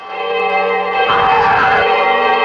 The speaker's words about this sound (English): The bells start to ring behind the creature.